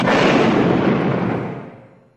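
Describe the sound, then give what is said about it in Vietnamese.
A mine explodes beside a wall corner next to a school, blasting toward the gate: one broad, roaring boom that fades gradually over about two seconds, with no voices. “Vừa lúc đó, từ phía góc tường cạnh trường Lê Văn Duyệt, một quả mìn thứ hai do chị Mười Thanh đặt nổ tiếp, đánh tạt ra phía cổng.”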